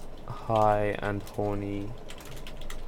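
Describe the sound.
Computer keyboard typing, a title being entered, with a rapid patter of light, dry clicks running through the whole clip, partly under a brief voiced sound in the first half.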